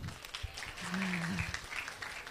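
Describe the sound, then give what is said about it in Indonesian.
Audience applause at a public forum on elections and voting: a short burst of scattered claps lasting about two seconds, with a low voice-like hum underneath. “Oke, kita berikan aplaus.”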